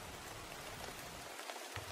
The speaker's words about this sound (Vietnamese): Huống hồ gì đêm hôm mưa gió thế này.